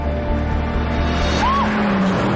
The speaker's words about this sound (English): It zips by her and screeches to a halt.